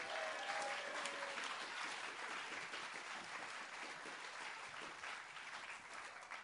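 Audience applause welcoming a performer onto a stage, a dense, steady wash of many hands clapping that holds evenly from start to finish and tails off only slightly at the very end.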